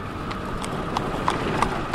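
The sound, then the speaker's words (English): Hooves of a horse pulling an Amish buggy clip-clop past on a Pennsylvania road, a steady, evenly spaced series of sharp knocks over a constant low rumble. “In Pennsylvania, an Amish buggy passes by Wormbold's truck as he continues his drive”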